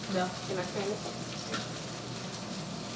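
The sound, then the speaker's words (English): A thick steak sears in a pan with a steady, hissing sizzle throughout. A voice talks briefly near the start. “So as you can see, one side is already seared. Okay. So we're going to flip it. Oh, yeah. That looks good right there. And because this is a thicker steak,”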